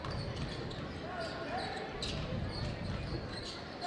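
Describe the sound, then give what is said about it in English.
A basketball is dribbled on the court during a game, a few faint thumps under steady crowd noise. “Looking for something, dribbling around the perimeter”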